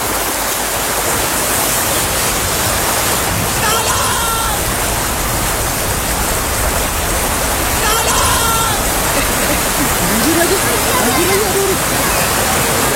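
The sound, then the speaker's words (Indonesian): Heavy rain pours down steadily during a flood, a dense, even hiss that fills the whole clip, with faint voices surfacing briefly now and then. “hujan lagi gimana dong? Iya hujan ya.”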